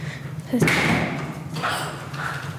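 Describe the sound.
A dull, sharp thump marks a ball being shot out as a reward for a police detection dog in training. People talk over it.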